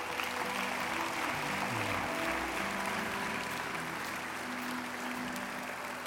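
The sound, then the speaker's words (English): A church audience applauds during a morning service, a dense, steady wash of clapping that holds at an even level throughout without pause. “Won't you in faith just applaud anybody that wants to come this morning”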